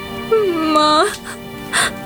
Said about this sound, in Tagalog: Bakit iyak ka ng iyak?